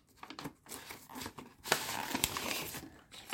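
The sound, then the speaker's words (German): Soft crinkling and rustling as the top of a homemade Easter gift is folded over, the handling noise swelling midway into a louder, sustained crackle. “jetzt knicken wir das oben einmal um”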